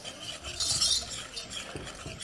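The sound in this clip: Four egg yolks being whisked with sugar and cornstarch, with the heat off: soft, steady scraping and light clinking strokes repeat continuously, with no voices.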